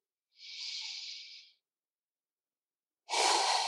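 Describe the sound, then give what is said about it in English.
Deep breathing during a guided meditation: a long, airy inhale lasts about a second, then after a silent pause a second, fuller breath begins and is cut off at the end. No voices are heard. “Allow yourself a conscious deep breath in and come back to your breath, your body.”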